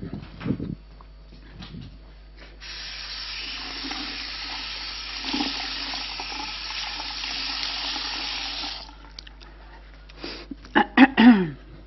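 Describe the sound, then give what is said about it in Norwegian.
Tap water runs while a sponge is washed under it, a steady hissing rush lasting several seconds before it stops, with a few faint knocks and clatters around it. “Du er nødt for å vaske svampen.”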